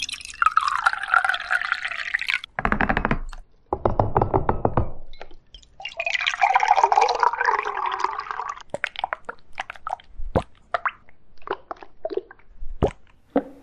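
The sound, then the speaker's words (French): Dripping water and other water sound effects: a series of irregular plops, splashes and trickling bursts, then many quick, sharp drips scattered across the second half. “Les bruits de l'eau.”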